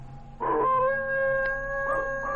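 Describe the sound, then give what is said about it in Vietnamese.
Stray dogs howl on a distant mountain slope: long, sustained, wavering tones from several overlapping voices, holding a fairly steady loudness throughout. “Tiếng chó hoang bắt đầu tru lên ở phía sườn núi xa xa.”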